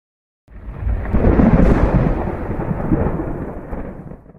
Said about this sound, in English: it immediately starts pouring the rain down.